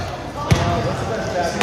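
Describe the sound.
Shaq bounces a basketball before a free throw: two low, hollow thuds about a second apart, heard under ongoing talk.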